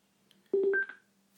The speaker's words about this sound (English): Philips Fidelio M1BT. Not connected. Button. And that noise means that it's connected.